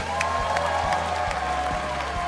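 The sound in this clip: Crowd cheering and applause greet Labor leader Bill Shorten at the Sutherland theatre in Penrith, in the marginal seat of Lindsay, a dense, steady roar of clapping and voices that holds level throughout over a faint tonal hum.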